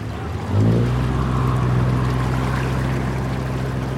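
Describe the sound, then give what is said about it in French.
A motor launch returning to a ship: its engine drone cuts in suddenly, then holds a steady low hum with a wash of water over it, loud and continuous. “Voilà la vedette qui revient.”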